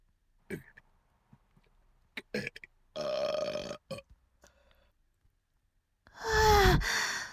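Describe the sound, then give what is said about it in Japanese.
A long, loud, deep burp with a pitch that drops near the end. It comes after a few short mouth noises and a breathy sigh. “あ、ゲップ出る。ゲップ出る。下品なゲップ出ちゃうよ。”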